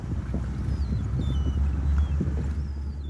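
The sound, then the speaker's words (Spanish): A motorboat heads out to fish for cod among icebergs in Disko Bay, western Greenland. It gives a steady, fairly quiet low engine rumble mixed with wind noise, and no one speaks. “sale a pescar bacalao cada mañana en su lancha a motor.”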